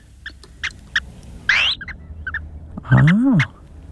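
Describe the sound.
A recorded call of a large bird: a few soft clicking notes, then a short rising squeal and finally a louder, harsh call that rises and falls in pitch.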